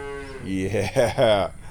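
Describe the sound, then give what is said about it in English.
A cow moos once at a cow-racing event where bets are placed. The call is long, low and wavering and lasts over a second, with no other sound over it. “Gotta find a fast-looking cow. Oh, like this guy.”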